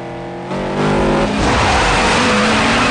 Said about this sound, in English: Dom wheels away with smoke pouring off the back tires.